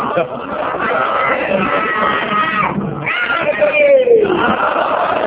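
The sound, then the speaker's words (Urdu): Crowd voices at a religious majlis chant a slogan together, loud and sustained, in two long swells with a brief break in the middle. “تو اچھا اس مرتبہ اور درود بھیج دیجیے، آپ کو نعرہ لگانا چاہیے.”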